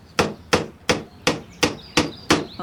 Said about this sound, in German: Und dann so lange auf den Nagel schlagen, bis er ganz im Holz drinsteckt.